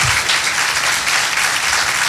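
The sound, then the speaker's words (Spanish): Audience applause for a city's mayor at a public event: a brief, dense burst of many hands clapping at a steady, loud level for about two seconds, with no voices over it. “Un aplauso para la alcaldesa, ¿no?, de la ciudad, por favor.”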